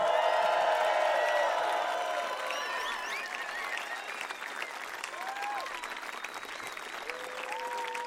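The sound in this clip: Live concert audience applauding and cheering with whoops after a call to make noise. The applause is loud and dense at first, then settles into a slightly quieter, steady roar that continues to the end.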